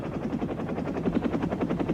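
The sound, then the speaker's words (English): A helicopter flying out over a river gives a fast, steady rotor chop, loud and continuous throughout, with a low engine drone running beneath the rhythmic thumps. “Sometimes I sign out a chopper.”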